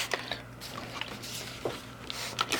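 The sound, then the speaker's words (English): A spray bottle mists water over a plant cutting to wet it well, giving a few short, faint hissing sprays over a steady soft background. “you can use a spray bottle here. Now what you want to do is you want to get it pretty wet. Now you have to go over it a few two few times to get it wet.”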